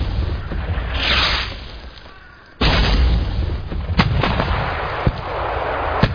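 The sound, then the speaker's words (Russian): Artillery-like explosions near a wood, each a dull, heavy thud that shakes the ground: one loud boom followed by a few more sharp impacts over a constant low rumble. “глухой удар содрогнул землю. За ним последовало еще несколько. Шатки разрывов поднялись над деревьями.”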